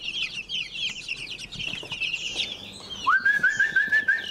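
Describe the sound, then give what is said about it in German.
A whistled call is made to a chick still in its egg to stimulate hatching: a rising whistle that settles into a run of short repeated notes, heard over constant chirping and clucking from birds. “Das Anpfeifen nennt man das, stimuliert einfach die Mutter, die tut ja ihr Junges im Ei auch stimulieren, dass es einfach auf dem Weg sich macht, aus dem Ei sich rauszuschaffen.”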